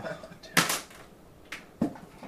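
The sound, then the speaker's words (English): Two six-sided dice rolled on a table, giving a few quick clattering knocks and rattles in short bursts, with a faint voice between them. “somebody roll me 2d6. Okay. Because I'm not rolling his dice.”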